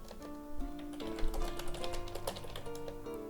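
Typing on a computer keyboard while searching for a clipboard manager: a quick run of many light, irregular key clicks over a steady tonal background.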